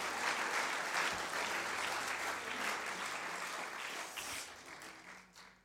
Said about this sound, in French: Est-ce qu'on peut acclamer Jésus? Est-ce qu'on peut acclamer Jésus?